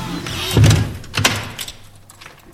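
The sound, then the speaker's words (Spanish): A door being pushed shut and latched, with two solid knocking thuds about half a second apart, then a faint low hum. No voices. “¡Ciérrame la puerta, por favor! ¡Que no la escucho ni un carajo! ¡Ciérrame la puerta! ¡Ciérrala bien! ¡Cierra, pon el picaporte!”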